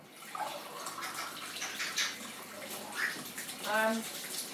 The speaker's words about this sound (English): Rinse this mug out a second.